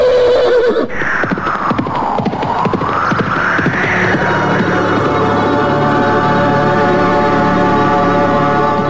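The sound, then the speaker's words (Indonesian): A horse neighs loudly, a long wavering whinny that dips and rises in pitch, followed by a dense, continuous rumble with clopping hoofbeats running underneath. “Ada kuda terbang!”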